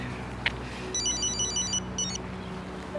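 A telephone rings with a rapid electronic trill, one longer burst followed by a shorter one, moderately loud over a quiet room hum.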